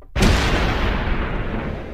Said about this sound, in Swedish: Nu är det dags för kanonkulorna.